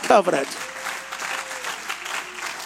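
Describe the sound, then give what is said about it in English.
A church audience clapping hands, a dense, continuous patter of many claps following a brief shout, with a faint sustained tone running underneath. “Go ahead, clap your hands, saints.”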